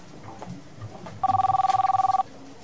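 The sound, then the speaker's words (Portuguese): A telephone rings in a single burst of about one second, a rapid, evenly pulsing electronic warble that stands out sharply over a low, quiet background. “telefone tocou, mas não pude atender.”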